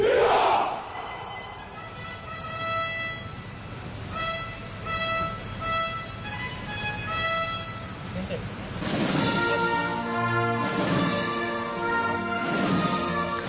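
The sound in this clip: Crowd shouting "Viva España" at Spain's national day parade: many voices cheer and chant in a loud, sustained mass of sound, with three stronger surges of shouting in the second half.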